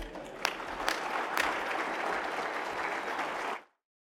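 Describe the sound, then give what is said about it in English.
An audience claps steadily to welcome a speaker, Phil Ware, with a few louder claps standing out early on. The dense clapping holds evenly and then cuts off abruptly before the end. “Phil Ware, today is going to be a hot day. It's going to be 100 degrees, so let's give Phil a very warm welcome.”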